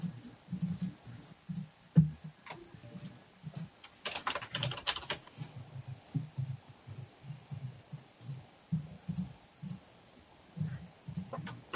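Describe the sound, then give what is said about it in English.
Typing on a computer keyboard gives many quiet, irregular key clicks in quick clusters, with a faint low hum beneath them. “I'm just going to type in all my stuff right now.”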